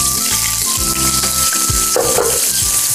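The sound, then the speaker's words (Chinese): Ginger slices and blanched chicken pieces frying in hot oil in a wok, giving a loud, continuous crackling sizzle that holds steady for the whole clip, with no voices. “倒入油，然后呢咱们呀先把这个姜片呢给它放到锅里，随后我们加入刚才焯好的鸡块”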